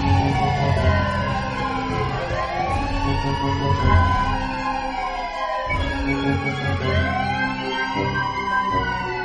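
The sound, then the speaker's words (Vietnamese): A police car siren wails in long rising and falling sweeps. It sounds continuously and fairly loudly for the whole stretch, with no voices. “Từ xa, vọng lại tiếng còi hụ của xe cảnh sát đang đến gần.”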